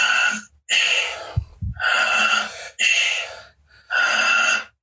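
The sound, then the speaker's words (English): Fast, forceful breathing through the mouth during a breathwork exercise. Several loud, airy breaths follow one another in a quick, steady rhythm, separated by brief gaps. “You can also breathe through the nose, but better through the mouth, goes easier. Okay, a little faster, second minute.”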